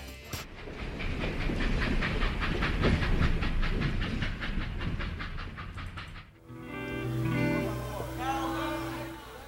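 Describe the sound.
A train carriage rolls along rails with a regular, rhythmic clickety-clack under a hissing rumble. The clatter stops about two-thirds of the way through, and a voice follows.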